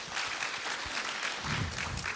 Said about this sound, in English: Thank y'all for clapping, and we'll let you clap at the end.